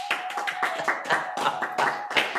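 Audience clapping during a spiritual yoga discourse: many sharp, rhythmic hand claps in quick succession, fairly steady in pace and loudness across the whole stretch, with no talking over them.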